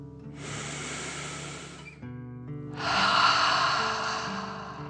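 A slow breath in and out during a relaxation exercise: one soft, airy inhale, a brief pause, then a longer, louder, breathier exhale that fades gradually, set against faint steady background tones.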